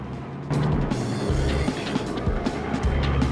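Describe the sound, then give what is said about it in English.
Car engine roaring as the vehicle reverses, brakes sharply and speeds off, heard as a continuous loud, noisy rush over a shifting low engine hum after a quieter opening half-second. “Elmo reverses the car, brakes sharply, then speeds towards the Mersey.”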